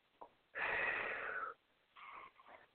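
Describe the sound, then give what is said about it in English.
Deliberate breathing on cue, in through the nose and out through the mouth: a loud, rushing, roughly one-second breath, then two shorter, softer breathy bursts, with no talking. “Another breath in through your nose, out through your mouth.”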